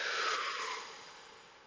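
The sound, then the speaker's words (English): A strong exhale pushed out through the mouth during a guided breathing exercise, heard as a single long breathy rush that starts loud and fades gradually, with no voice. “Breathe in once more strongly. Strongly out through your mouth.”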